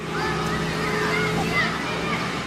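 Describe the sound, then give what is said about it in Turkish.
Water sprays from municipal vehicles onto children in the Siverek heat, making a steady, rushing hiss that continues throughout, with people talking over it. “Güneş altında termometrelerin 52 dereceyi gösterdiği Siverek'te belediye araçları çocukların üzerine su sıktı serinlesinler diye.”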